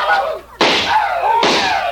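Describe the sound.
Two loud gunshots from an old trapper's gun in a western frontier town, each a sudden sharp crack trailing into a long, ringing decay, the second following close after the first.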